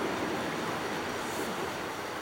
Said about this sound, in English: You heard the names of three of the four publicly owned covered bridges in Virginia, along with the sounds of streams flowing under them.